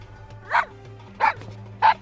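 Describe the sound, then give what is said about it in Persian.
A village dog barks three short, sharp times, evenly spaced and alone, over a low steady hum. “داره بهت پارس میکنه.”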